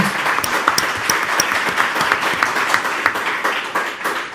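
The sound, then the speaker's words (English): Audience applause at a panel debate on a new industrial revolution: many overlapping claps merge into a dense, loud, steady wash that holds level from start to finish, with no voices on top. “Thank you very much. Big hand for everybody.”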